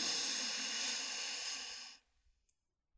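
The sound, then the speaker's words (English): A deep breath drawn in and released, heard as a steady, breathy rush of air lasting about two seconds before cutting off into near silence, followed by a faint click. “You should hear an audible sound when you take a deep breath in.”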